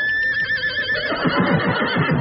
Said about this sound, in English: I had no idea they sounded so much like horses.